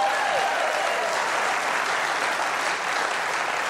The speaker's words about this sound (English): I appreciate the applause.